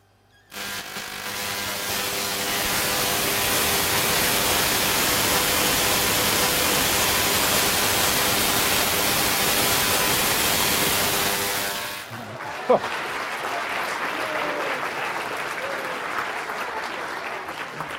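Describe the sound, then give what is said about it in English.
A Tesla coil switched on and discharging: a loud, harsh buzzing roar holds steady for roughly eleven seconds, then cuts off abruptly, leaving a quieter, uneven background. “This is my Tesla coil, and this can generate lots of energy. Right. OK, turn it on.”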